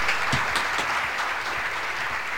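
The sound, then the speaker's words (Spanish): Applause for a guest on a live talk show, a dense, steady wash of many hands clapping at even loudness for the whole stretch, with no voices. “Fuertes aplausos.”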